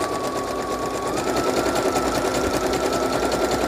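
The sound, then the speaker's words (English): A sewing machine stitches around the outside edge of a paper wallet made from a book page, giving a steady, continuous mechanical whirr with a fast, even rhythm throughout. “I'm just going to sew around the outside of this. I hope that's not too noisy for everybody. It's going to be a pretty quick sew.”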